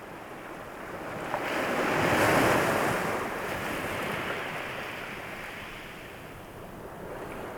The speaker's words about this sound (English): Firstly, this is the sound of the sea that I recorded in a traditional way using stereo microphones.